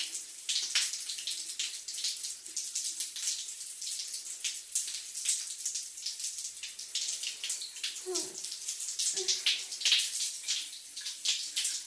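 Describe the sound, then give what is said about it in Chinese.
Water running into a bath makes a steady, even hiss of flowing and splashing that continues for the whole clip, with a few brief swells and one short tonal squeak partway through. “我觉得好舒服，我们一起洗澡吧。”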